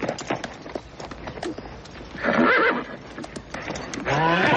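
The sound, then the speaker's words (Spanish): Agitated, tethered horse struggling to break loose, letting out two loud, shrill whinnies amid scuffling hoof thuds and scattered knocks. “Su caballo se agita pugnando por desatarse.”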